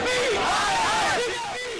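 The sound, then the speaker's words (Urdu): Protesters at a Youth Congress demonstration in Delhi chanting slogans against the BJP governments, loud massed voices in rising and falling shouted phrases that ease slightly in volume near the end. “Delhi میں youth Congress کے لیڈروں اور کارکنوں نے احتجاجی مظاہرہ کر کے مرکز اور مدھیہ پردیش میں بی جے پی کی حکومتوں کے خلاف نعرے لگائے”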